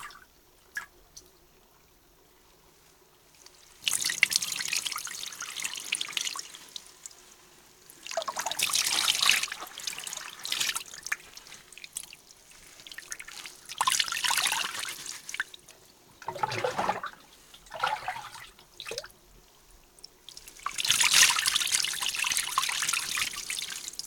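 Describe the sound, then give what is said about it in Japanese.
Water rinses soap suds away in several separate gushes of splashing, trickling flow, with quiet pauses between them. The bursts vary in length and the last one is loudest. “それではシャボンを流してしまいましょう。”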